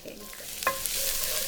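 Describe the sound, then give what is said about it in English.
Garlic sizzling in shimmering-hot oil in a skillet: a dense, steady frying hiss throughout, with a brief clink of stirring partway through. “I really need the oil almost to be sizzling. Mm. So you want the oil to be sort of exactly shimmery hot. Exactly. And we start with garlic.”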